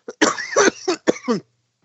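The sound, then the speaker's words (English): A person with a lingering, harsh cough lets out a short series of rough, throaty coughs in quick succession, starting with a faint catch and ending in silence. “I still have that horrible cough from like the last two episodes.”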